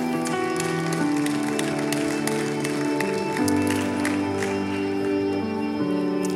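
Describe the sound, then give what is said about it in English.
Church audience applauding to welcome a guest on stage, clapping mixed under loud sustained music with held chords that change a few times, the sound staying dense and even throughout. “Let's give a hand to Karin Mock. Welcome on stage.”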